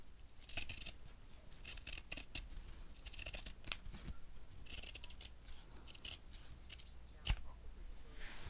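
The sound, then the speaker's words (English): Scissors snip through fabric, cutting out pattern pieces for an applique quilt: many quick, crisp snips in an irregular rhythm, faint and with no talking. “Now, please enjoy some fabric cutting ASMR.”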